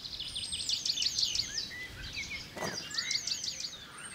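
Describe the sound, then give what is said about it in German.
Male penduline tit sings near its hanging nest in a floodplain, giving faint thin high-pitched notes in two quick repeated phrases against a soft background hiss. “Zwischendurch singt der Meisenmann Weibchen herbei, die das Nest inspizieren sollen.”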